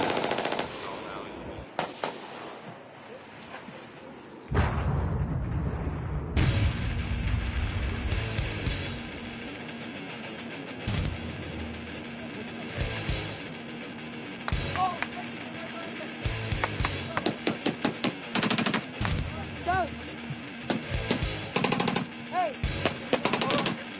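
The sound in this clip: Automatic machine-gun fire and gunshots in a big firefight: loud, sharp bursts in rapid strings, broken by brief pauses and scattered single cracks, continue throughout.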